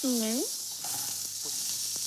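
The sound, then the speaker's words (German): Sizzling of Iberico pork cheeks searing in a pan, a steady bright hiss of hot fat that runs through the whole moment at an even level. “Jetzt wird es immer schnell angebraten.”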